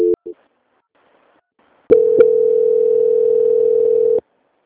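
Telephone line tones play during a call transfer: two short beeps, then a pause, then one steady single-pitched tone that holds for about two seconds before stopping abruptly.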